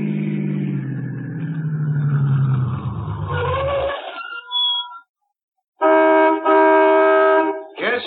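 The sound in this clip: A car pulls into a gas station at night in lonely country through the Alleghenies; its loud engine rumble drops in pitch and fades out. After a short silence, a loud, steady ringing tone sounds twice.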